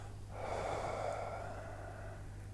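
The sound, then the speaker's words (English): A deep preparation exhale during a breathing exercise: one long, steady breath out of about two seconds, with a soft airy rush over a constant low hum. “So I do a preparation exhale,”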